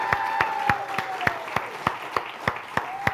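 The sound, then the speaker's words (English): A church audience claps in a steady, even rhythm of sharp claps, with a sustained, voice-like holler gliding over the beat. “Give it up for our online family. Woo!”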